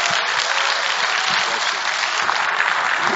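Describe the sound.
A church audience applauds to welcome a guest speaker, a steady, dense patter of clapping at even loudness throughout.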